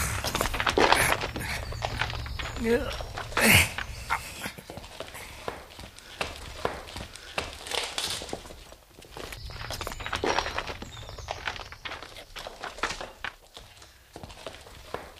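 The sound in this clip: Footsteps of someone walking into a cave: many irregular steps with no clear rhythm, heard at a moderate level with no voices.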